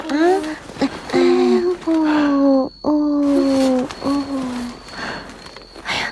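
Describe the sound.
A hungry baby cries in loud, drawn-out wails, several sustained bursts separated by short breaths, each cry holding a strained tone before trailing off.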